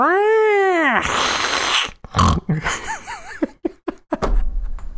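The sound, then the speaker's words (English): A person vocally imitates a very heavy female cat snorting. A long whining vocal sweep is followed by a series of short, gruff nasal snorts and grunts of varying loudness. “After she hisses at me, she started snorting. I had never heard a cat snort before. You can just imagine this cat was like,”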